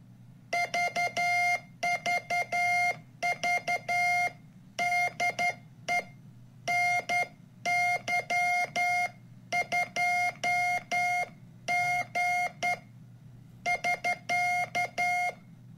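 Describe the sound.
Morse code sent by hand on an original novice telegraph key by an amateur radio operator: a steady mid-pitched tone keyed in irregular dots and dashes, grouped into character bursts with short pauses, fairly faint over a low hum.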